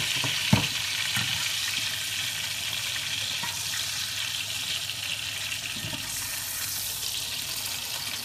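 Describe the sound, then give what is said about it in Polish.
Bacon fries in melted butter in a pan, giving a steady, even sizzling hiss throughout. A single sharp knock comes near the start. “Dodajemy jeszcze trochę masła do nich, żeby się rozpuściło. No i weźmiemy, sprawdzimy nasz boczek. O, jak ślicznie. Przekładamy boczek.”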